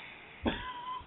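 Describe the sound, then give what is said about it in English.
A single short cough bursts out sharply against an otherwise quiet background, then fades. “Are you coughing, boy?”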